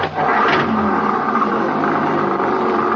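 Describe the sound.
A 1956 Chevrolet car engine runs loud and steady as the car drives off, a continuous rumbling drone with no talk over it.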